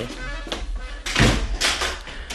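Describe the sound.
A door being shut in a radio drama scene: one dull, heavy thunk stands out over a constant low background hiss.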